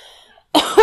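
A person with a persistent cough lets out two quick, loud coughs back to back after a moment of near silence, the second slightly stronger than the first.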